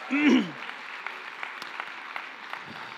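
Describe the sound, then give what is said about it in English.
A church audience applauds the dads on Father's Day. A brief voice is heard at the start, then scattered, light clapping continues at a modest level. “So can we give it up for dads this morning?”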